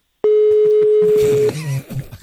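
A telephone call placed during a morning radio show, opening with a loud, steady single-pitched tone held for over a second, then short beeps and clicks of the line connecting.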